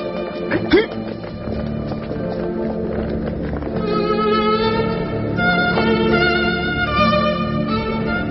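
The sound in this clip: Galloping horse hooves during a chase scene in a historical Three Kingdoms-era drama, a fast, continuous pounding that is steady throughout and set within a dense, sustained layer of other sound.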